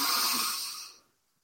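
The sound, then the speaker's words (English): A person draws one deep breath in, an airy hiss lasting about a second that fades away into silence. “Take a nice deep breath in,”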